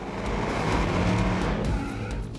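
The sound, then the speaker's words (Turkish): A race car does a burnout before a drag-strip launch, its tires spinning. A loud, continuous roar of engine and tire noise holds steady for about two and a half seconds with no talking. “Yak o lastikleri.”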